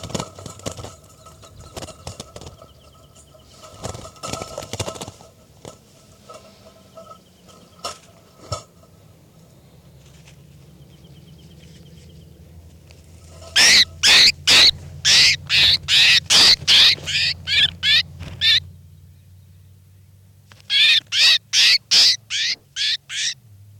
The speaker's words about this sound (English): Start recording now. I'm going to be handling bird 405.